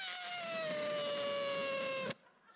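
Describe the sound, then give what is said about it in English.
A voice imitates whining like a complaining prayer, one long, nasal, sustained whine that sinks slightly in pitch before stopping abruptly. “That's what we sound like to God sometimes. You know what I'm saying? You know what I'm talking about? Just whining, you know? Just whining.”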